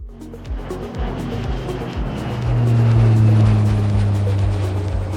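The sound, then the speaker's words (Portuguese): Small jet aircraft taking off as a sound effect, its engine roar building and thickening into a loud, sustained rumble with a strong low hum that swells midway and holds. “aperte os cintos, deixe seu assento na posição vertical e verifique se a bandeja está devidamente presa, porque é hora do nosso jatinho decolar.”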